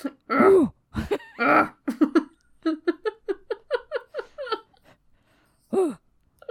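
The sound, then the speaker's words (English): A person imitates a bison's grunt with the voice: several low, throaty grunts, then a quick run of short huffing pulses and one final grunt, with brief gaps between the bursts. “I don't know what a bison sounds like. They grunt.”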